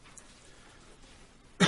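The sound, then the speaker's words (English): A man gives a single short, abrupt cough, loud and rough, after nearly silent room tone. “Pardon me. Still shaking a cough from the feast.”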